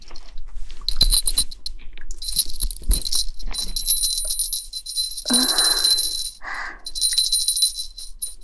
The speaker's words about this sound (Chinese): 宝宝，看到你的小狗铃铛了吗？小狗吃饭都要铃，都要摇铃的。